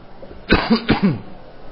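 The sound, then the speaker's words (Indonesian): Two sharp, harsh coughs from a man during an Arabic grammar lesson, close together and fairly loud. Low voiced throat sounds surround them. “Kurang jelas suara ya karena lagi batuk.”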